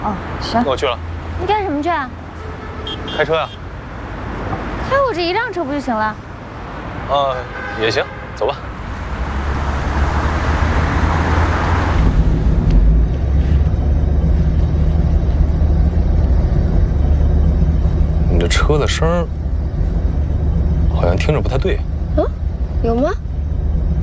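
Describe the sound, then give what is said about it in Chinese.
A car's engine and exhaust roar as it drives, the owner's car sounding off and making an unexpected exhaust rumble. People talk at first, then a loud, steady low roar takes over and continues, with voices briefly over it later. “你这车的声儿好像听着不太对。嗯，有吗？啊，怎么还有声浪？”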